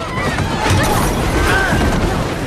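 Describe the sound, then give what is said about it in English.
A train carriage rocks violently and crashes after its wheels slip from the track. The result is loud, continuous metallic clattering and rumbling, laced with thin screeching squeals. “The train wheels slip from it, and the carriage rocks back and forth violently.”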